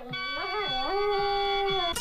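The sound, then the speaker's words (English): A dog howls along at the end of a song played from a vinyl record: a wavering, tonal howl that bends up and down in pitch, then settles into a long held note before breaking off abruptly. “There it was. There was the dog singing.”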